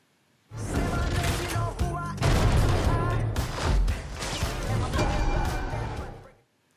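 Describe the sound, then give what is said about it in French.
Pump-action shotgun fire: many blasts and crashes packed into a dense, loud mix. It starts abruptly, stays intense for about six seconds, then fades out. “Et ouais, t'as vu, il y a du fusil à pompe.”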